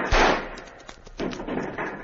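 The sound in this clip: Gunfire in a radio-drama battle at a river island and sandbar: one sharp, loud shot opens, followed by a rolling crackle of further shots and impacts.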